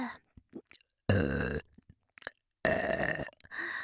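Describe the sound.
Two long, loud, croaking burps, each lasting about half a second, with faint mouth and breathing noises in the gaps between and after them.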